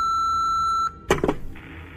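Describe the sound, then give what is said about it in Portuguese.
A voicemail box sounds a single steady, high electronic beep lasting under a second before its new messages play, followed by a brief clattering burst and then a quiet hiss. “Você tem três novas mensagens.”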